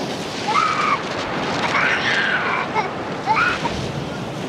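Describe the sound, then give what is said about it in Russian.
Sea waves wash in a steady, broad rushing roar under fog, with faint tonal sounds drifting over the surf. “Туман укрывает море.”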